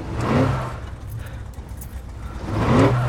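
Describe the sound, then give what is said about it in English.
A truck engine rumbles steadily as the vehicle drives up a street and jerks. The low drone swells in a revving surge near the start and again near the end. “Later, she drives the truck up a street. The vehicle jerks.”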